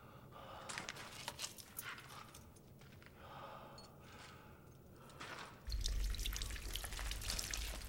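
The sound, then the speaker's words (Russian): Water trickling down rocks: a soft, continuous watery wash scattered with small drips and splashes. A low rumble joins in near the end, and the whole sound stays fairly faint. “Сара пьет воду, стекающую по камням.”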